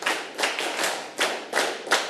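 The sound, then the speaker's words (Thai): Children clapping their hands together during a classroom lesson: several bright, fairly loud claps in a loose, uneven rhythm, each with a short tail, and no talk. “ปรบมือหนึ่งครั้งปรบมือหนึ่งครั้งปรบมือ10ครั้ง”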